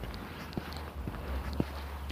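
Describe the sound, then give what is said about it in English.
Crunching footsteps on crusty, wind-blown snow in a bike lane, a few separate crisp steps at an unhurried walking pace over low steady background noise. “I'm gonna walk in the street here because I got another patch of this crusty, impossible crap to walk in. It's a bike lane. I'm gonna walk in it.”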